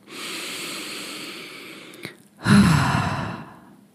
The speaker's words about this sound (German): Atme einmal ganz tief und über den Mund wieder aus.